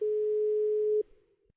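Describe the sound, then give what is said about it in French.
A telephone dial tone sounds while a call is being placed. It holds one even, steady pitch for about a second, then cuts off abruptly, leaving faint low noise. “je te laisse composer le numéro”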